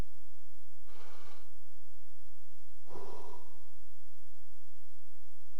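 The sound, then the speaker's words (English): An audience at a church service takes a deep breath together: two broad, airy breathing swells a couple of seconds apart, the second fuller and stronger, with no talk in between. “Everybody get a breath?”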